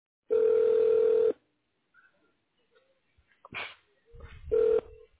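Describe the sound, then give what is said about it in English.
Keypad tones sound as a key is pressed in an automated phone menu: two steady electronic beeps, the first about a second long and the second much shorter, separated by faint scattered noises and a brief burst. “If you know your party's extension, please press 1.”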